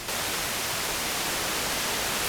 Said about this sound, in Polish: dostajemy masę szumu